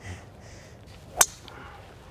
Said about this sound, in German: Ein hervorragender letzter Abschlag bis aufs Fairway.